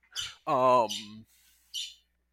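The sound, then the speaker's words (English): Parrot chirps and squawks from a pet bird: a few short, high chirps around one longer, harmonic squawk whose pitch falls, each call standing alone. “Apologies if you hear chirping in the background at all. I'm babysitting my family's parrot, and he has Pokemon opinions as well.”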